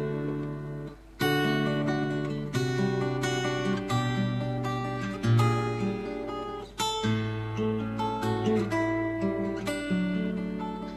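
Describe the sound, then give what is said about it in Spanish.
An acoustic guitar, about to accompany a classic folk song, is played alone in a series of ringing chords and plucked notes. Each one strikes clearly and then decays, at a moderate, unhurried pace. “la voy a tocar con esta guitarra, que suena así.”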